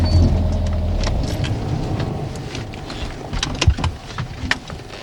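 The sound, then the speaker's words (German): A car's engine rumbles steadily with road and wind noise as it pulls over to the roadside, with a few sharp knocks near the end. “Okay, Moment. Ich fahre rechts dran.”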